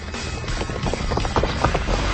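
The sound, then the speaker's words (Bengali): Running footsteps along a road sound as many quick, irregular thuds and scuffs at moderate loudness, alone with no voices, growing slightly stronger toward the end. “পিছনে শোনা গেল ছুটন্ত পদশব্দ।”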